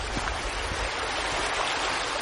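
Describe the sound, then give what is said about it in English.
A small brook flows with a steady, unbroken rushing hiss of water that holds at an even level throughout. “Glenn makes a detour to admire a nearby brook. This is a beautiful little sight down here.”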